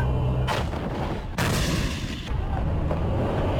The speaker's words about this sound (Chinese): 抵达阵地，实弹射击即刻展开